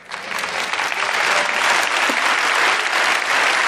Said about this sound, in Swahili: Sasa, najua tofauti kati ya makofi ya kweli na makofi ya mchwara mchwara. Na hiyo ni sawa, hamna haja ya kupiga makofi tena, lakini ninajifunza mengi kwa kusikiza makofi.